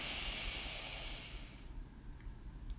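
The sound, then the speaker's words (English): A long, deep inhalation through the nose during a guided relaxation exercise: a soft, steady, airy hiss lasting about a second and a half, then fading into near quiet. “let's take a big deep breath in through our nose.”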